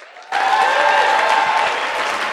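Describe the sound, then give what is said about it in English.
Applause from a church audience welcoming a guest pastor to the stage. Dense, steady clapping starts abruptly after a brief quiet moment and holds at an even, loud level to the end. “Appreciate it. Oh, oh, oh. Slow clap.”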